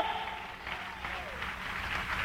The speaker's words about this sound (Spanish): Dale un aplauso de alabanza al Señor.